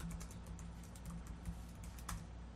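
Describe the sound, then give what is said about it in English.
Typing on a computer keyboard while entering a search query: rapid, light key clicks in an uneven stream, faint and continuous over a low steady hum. “I wonder if I type, when is the next Canadian election, if the same thing will happen.”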